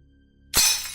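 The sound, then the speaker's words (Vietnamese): Bowls and chopsticks falling and breaking in a kitchen at night: after a faint low hum, one sudden loud crash of shattering crockery, followed by a bright clattering, tinkling tail of scattering shards. “Tiếng bát đũa đổ vỡ rơi loảng xoảng dưới bếp.”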